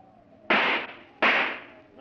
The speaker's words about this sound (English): Remember, I'll fire two shots. That's the signal for the others.